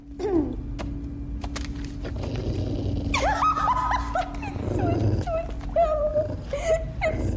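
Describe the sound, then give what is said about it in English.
A poodle whimpers and whines in a series of high, wavering cries. A steady low hum runs underneath throughout. “Then Azura hands the poodle over.”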